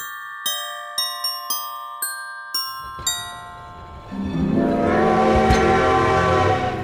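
A run of bright, ringing chime strikes gives way to a loud, sustained train horn over rumbling rail noise, the horn's steady harmonic tone filling the second half.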